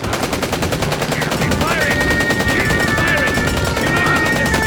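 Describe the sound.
Rapid machine-gun fire rattles in an audio drama battle scene, continuous and loud throughout, with a thin high whining tone running over the shots partway through.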